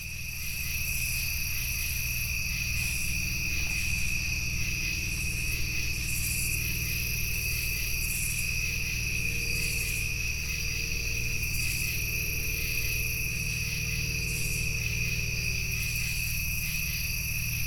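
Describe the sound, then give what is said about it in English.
Crickets and other insects chorus at a bayou in southern Illinois: a continuous, shrill high trill with sustained ringing tones over a low hum, steady in level throughout with no voices. “That was the sound of Turkey Bayou, all the way over in southern Illinois.”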